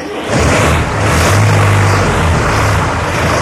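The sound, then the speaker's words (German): Loud, steady engine rumble of an open truck driving through the tunnels of an underground mine, a dense continuous drone with no talk over it. “Wir steigen um auf offene LKW”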